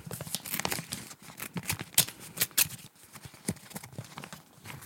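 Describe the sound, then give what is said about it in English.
Paper envelope being torn open, with crisp crackling rips and crinkles coming in uneven bursts, fairly faint and with no voices over them. “An envelope. Envelope. Okay, hold on. There's a little ASMR for you. Here we go.”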